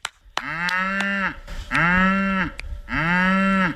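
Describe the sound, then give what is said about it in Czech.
Cows and calves running on a farm, mooing: three long, loud, low moos, each drawn out and holding steady before cutting off, with short pauses between. “Ne, bík ne, zatím běží krávy a telata.”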